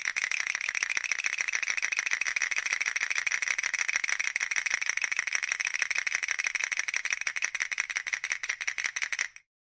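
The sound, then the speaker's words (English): A game wheel spins with a rapid, loud clatter from its clicker, an unbroken stream of many ticks that stops abruptly. “Yeah, I gotta spin that wheel.”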